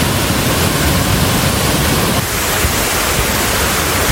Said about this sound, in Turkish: Kar sularıyla beslenen şelaleler ve akarsular gürül gürül akmaya başladı.